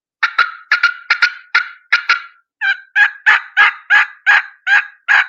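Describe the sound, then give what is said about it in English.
Turkey call: a rapid run of sharp, clipped cut notes, then after a short pause a steady series of louder, raspy excited yelps, alone and clearly spaced. “So I'm going to cut 3, 4, 5 times and then go into an excited yelp. Just like that. We'll do it one more time. Just a little sharp cut note.”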